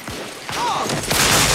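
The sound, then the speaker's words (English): Gunfire in a Civil War battle: a few sharp reports cut through a dense, rising roar of noise that grows louder toward the end of the short burst. “A soldier next to Thomas is shot.”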